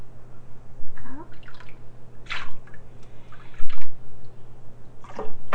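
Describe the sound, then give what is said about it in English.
Water splashing and dripping as a child is bathed and rinsed with a cup, a few short splashy bursts over a low steady hum. “We're gonna wash you with a cup.”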